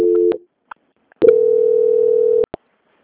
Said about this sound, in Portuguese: peço que aguarde em linha, que eu vou transferir o contato para o controle de qualidade, que dará continuidade à sua contratação. Tenha uma boa tarde, só um momento. Ok. Transferência.